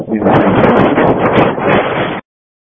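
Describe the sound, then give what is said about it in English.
Heavy wind blasting across a radio transmission: a loud, steady roaring rush that fills the line for about two seconds, then cuts off abruptly into silence. “TN9, I can't make out what you're saying in the wind.”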